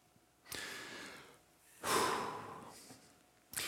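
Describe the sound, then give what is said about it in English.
Deep breaths drawn by a group of people together, heard as airy, hissing breath sounds in a few long swells with short pauses between, and no talking. “So the first is this, and this is one that we can actually do physically together. First one, take a deep breath.”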